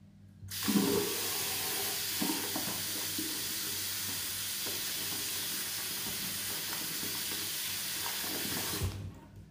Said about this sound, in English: Okay, that was me running the tap.